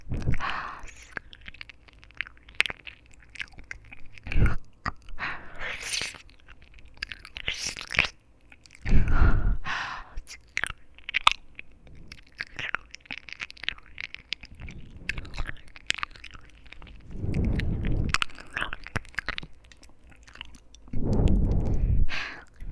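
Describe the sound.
Someone bites and chews a crunchy snack, making many crisp crunches and chewing noises at an irregular pace. A few louder bite bursts stand out, with soft breathing between them.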